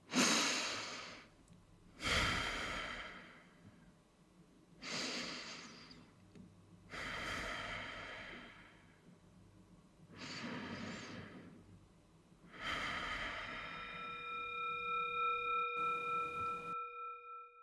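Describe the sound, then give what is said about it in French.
Three big, deep breaths, each a slow, loud inhale and exhale that rises and fades away. A steady ringing tone comes in toward the end. “après trois grandes et profondes respirations”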